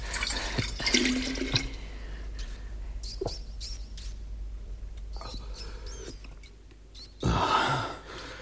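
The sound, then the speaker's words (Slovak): Royal Tarshish wine poured with a splashing, gurgling stream over the first second and a half, then faint drips and quieter trickling, and a louder burst of pouring near the end. “Je to kráľovské víno. Ešte nikdy som také nepil. Nalej mi”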